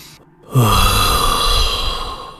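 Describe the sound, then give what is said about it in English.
A person takes a deep breath, a loud, airy rush of breathing that holds steady for about two seconds after a quiet start. “Well, first I usually take a deep breath.”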